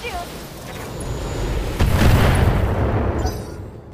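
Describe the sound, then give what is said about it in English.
A tank blown up in a video game: a heavy, low explosion booms midway, then a rumbling roar lingers and slowly fades. “I guess you can shoot at a tank and have a good chance of blowing up a tank, so yeah, do it.”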